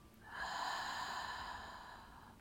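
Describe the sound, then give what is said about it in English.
A slow breath drawn through the nose during a guided self-care breathing exercise: one long, faint, airy inhale with a slight whistle, lasting a couple of seconds, with no talk. “Inhale through your nose. And exhale through your mouth.”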